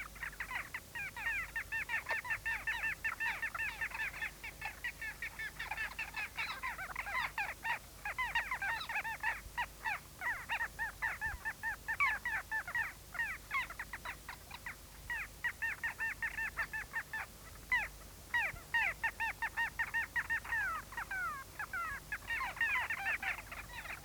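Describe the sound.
A nesting colony of little gulls calls from a small sandy island, a dense, continuous chorus of many rapid chattering cries, loud and steady from start to finish.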